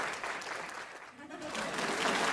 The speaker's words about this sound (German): Genau, da ist euer Applaus. Schön auf 100% machen.